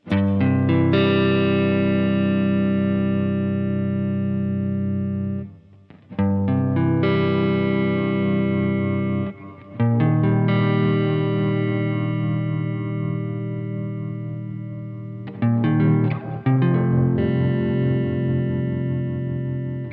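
Guitar chords run through a Strymon spring reverb pedal with a modulated shimmer effect, ringing out as a few long, lush sustained swells with brief gaps between them and a bright, wavering halo above.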